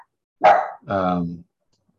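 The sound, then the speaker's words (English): Dogs bark at garden work going on outside, with two loud, distinct calls against silence. The second call is longer and more drawn out, and a third starts right at the end. “Also, there's some garden work going on outside, so my dogs are going to be barky.”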